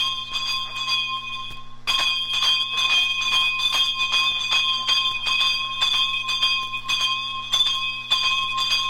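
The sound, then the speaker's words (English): Bells ringing in Trinidad, recorded in 1961: bright metallic tones struck in a steady repeated rhythm, sustained and layered over a low constant hum, with a brief pause near the start. “Playing behind me is some bell ringing from Trinidad, recorded in 1961.”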